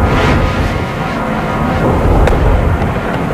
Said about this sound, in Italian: Vai, vai, la senti l'artiglieria? Corri che il tiro tirerà pochi minuti.